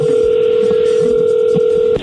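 A telephone tone while a call is placed: a loud, steady, single-pitched tone holds unbroken for about two seconds, then cuts off abruptly.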